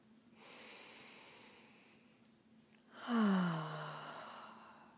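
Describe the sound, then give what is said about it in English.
A slow, deep breath drawn in, then a longer, louder exhalation pushed out through the mouth, both soft and airy and heard alone without talking. “and exhaling through the mouth. And let's massage those tender spots in the chest. Taking another breath here.”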